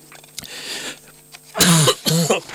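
A person coughs after something went down the wrong way during an interview, a few harsh coughs with the last two bursts loudest and closest together, heard alone without speech.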